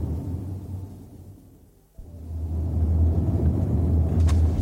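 A car drives in a radio drama scene, heard as a steady low engine rumble that sinks to a brief lull midway, then returns fuller and louder.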